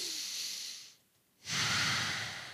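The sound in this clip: A deep breath during a guided calming exercise: a long, airy inhale, a short silent pause, then a fuller and louder exhale that trails off slowly.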